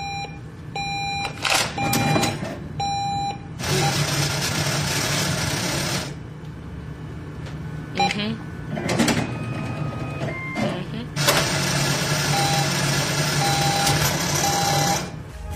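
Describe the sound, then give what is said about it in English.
A money counting machine, like those in an ATM, whirs in loud rapid fluttering runs, two long bursts and a few shorter ones, with short electronic beeps sounding before and after the runs. “It sounds like a machine that counts money.”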